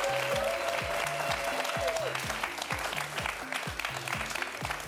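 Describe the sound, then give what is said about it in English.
A concert audience gives itself a round of applause. Loud, dense clapping runs throughout at an even level over a repeating low rhythmic pulse. “Give yourselves a hand, louder, yeah.”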